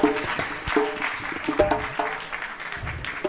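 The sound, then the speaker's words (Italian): Audience applause greets the percussionist at an evening of poetry readings. The clapping is uneven and moderately loud, with voices mixed in throughout. “a cui vi chiedo di fare fin da subito un grande applauso”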